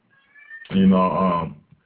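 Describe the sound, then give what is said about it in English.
A male house cat, acting up and restless, gives one drawn-out, fairly loud meow of nearly a second, with a faint thin tone just before it. “if anybody hear my crazy cat in the background, I apologize. He's acting up because the show is on.”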